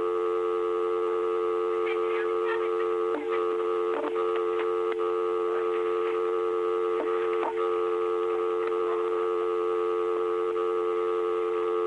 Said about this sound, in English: Dial 9. Dial 9 over here.